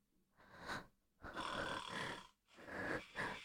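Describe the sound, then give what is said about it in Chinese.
Loud snoring from a sleeping father: about three long, rasping snores with short quiet gaps between them. The middle snore is the longest, and nothing else is heard. “这是妈妈的呼噜声，还是爸爸的呼噜声？哦，我就说嘛，妈妈的呼噜声不可能这么大，”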